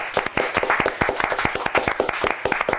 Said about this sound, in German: deshalb bitte ich auch um Applaus im Studio.